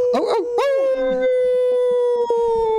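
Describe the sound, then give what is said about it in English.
Human voices imitate wolves with loud, drawn-out howls that rise at the start, then hold one long sustained tone to the end, with a second voice joining early on. “That's us howling like complete idiots because we're going to be riding some.”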